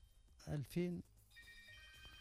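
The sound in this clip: A telephone rings in steady, repeating electronic tones just after a short burst of voice.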